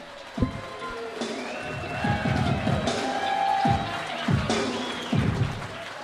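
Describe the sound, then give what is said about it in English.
A live audience in a large airport hangar in Ventura, California, cheers and applauds as the host of a comedy show is welcomed: a moderate, sustained clapping with scattered whoops and shouts. “Give it up for Tony Hinchcliffe.”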